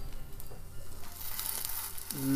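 Sausages sizzling as they fry, a steady crackling hiss with fine spitting pops running unbroken for a couple of seconds at low volume.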